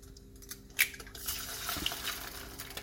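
A knife cracks eggs into a pan with one sharp, bright click of blade on shell, followed by a steady soft sizzle and faint wet crackling as the egg hits the hot surface.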